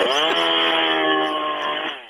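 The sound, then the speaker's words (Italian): A chainsaw engine runs in a steady, buzzing whine with a rich stack of harmonics, dipping briefly in pitch near the start and again near the end before fading slightly over about two seconds, with no talk. “È il rumore della motosega questo che si sente.”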